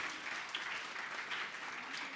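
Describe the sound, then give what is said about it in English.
A church audience claps in thanks during a Christmas sermon. The steady patter of many hands is fairly soft and keeps an even level throughout. “Give God a big clap. You better clap and thank God for Christmas.”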